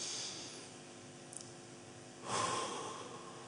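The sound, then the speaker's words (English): A deep breath drawn in through the nose: a faint, soft rush of air rises partway through and lasts about a second, over a low, steady background hiss. “Breathe in.”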